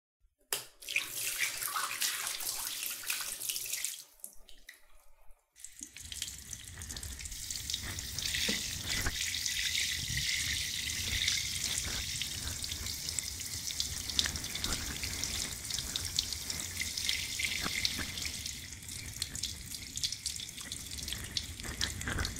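Steady, loud rush of running water from a tap or shower, used to rinse someone off while washing their body. It hisses continuously, with a brief dip in the middle, then pours on without a break to the end.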